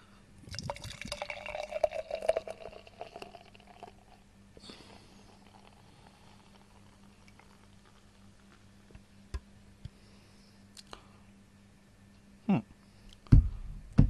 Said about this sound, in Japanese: じゃあ、缶開けます。じゃあ、グラスに、注いでいきたいと思います。